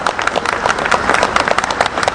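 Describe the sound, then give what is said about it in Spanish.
Crowd applause at a gathering demanding justice: a dense, steady patter of many hands clapping, loud and continuous from start to end with no voices standing out. “aplaudamos por nuestro reclamo de justicia.”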